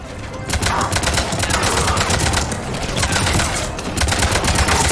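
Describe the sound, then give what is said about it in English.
Rapid gunfire fills a video game battle against Cerberus operatives and a tank. Dense, continuous bursts of shots run through the whole clip with no speech. “Okay, so we're fighting a bunch of Cerberus operatives, including a tank.”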